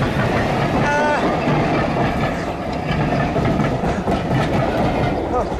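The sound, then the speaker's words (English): A down train thunders past on the railway, a loud, continuous roar of wheels and carriages with metallic clatter and brief high squeals, filling the whole clip without letting up. “Now, having narrowly avoided being crushed to pulp by the down train”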